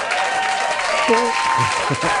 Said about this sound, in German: Dann kriegst du hier noch einen Applaus.